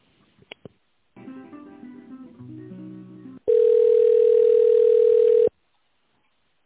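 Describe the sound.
Telephone line sounds during a call transfer at a business: a few faint clicks, a short electronic tune, then one loud, steady, unbroken tone lasting about two seconds before the line goes quiet.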